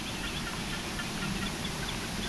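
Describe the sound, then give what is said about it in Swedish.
A lone reed warbler sings a little at night near a gnarled oak, its faint, scratchy chattering notes barely rising above a steady hiss. “Det enda vi har är en rörsångare, en ensam rörsångare som sjunger lite grann.”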